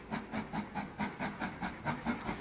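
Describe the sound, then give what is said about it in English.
Rhythmic hissing steam from a train engine with a blown turbo: a steady run of quick, evenly spaced chuffing bursts of broad hiss, with no voices. “This guy is me. Watching a train. I think his turbo's blown.”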